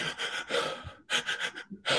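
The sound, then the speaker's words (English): A voice imitates a child gasping and catching breath after a long bout of crying, in a few shaky, breathy inhalations broken by short pauses. “finally getting over it, but he's catching his breath”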